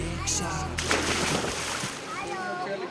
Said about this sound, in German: Das ist Radio Steiermark, heute live aus dem Freibad in Stainz.